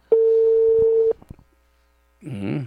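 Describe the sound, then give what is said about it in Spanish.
A telephone call being placed: one steady dial tone lasting about a second, followed by a few soft clicks, a silent pause, and then a voice speaking. “Vamos a buscar el contacto telefónico con el señor, ¿eh? A ver, vamos a ver. Estamos llamando.”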